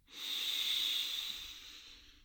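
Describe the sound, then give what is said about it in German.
A deep inhale through the belly during a guided yoga relaxation, heard as a soft, steady breathy hiss that swells and slowly fades over about two seconds, with no talk. “Nochmal tief einatmen durch das Bauchzentrum, Herzzentrum bis zum Kopf.”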